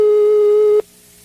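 A telephone line tone sounds while a call is being redialed: a single steady, mid-pitched beep, loud and alone, lasting just under a second before cutting off.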